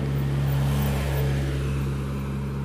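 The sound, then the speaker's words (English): Cars passing by outside make a continuous low engine rumble with a steady hum, holding level throughout with no distinct individual pass-bys. “even with the cars passing by, I try to use that to my advantage.”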